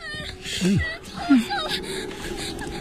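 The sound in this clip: A child whimpering as if sick behind a door in a radio drama: two brief, wavering whimpers, the second shorter, over a faint steady hum.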